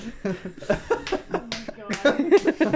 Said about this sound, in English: You slap your own ass? Yeah, I do. Yeah. Slap your own.